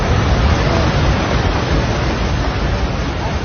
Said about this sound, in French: Et ce que vous entendez là, c'est le bruit d'un flanc de montagne entier qui s'effondre.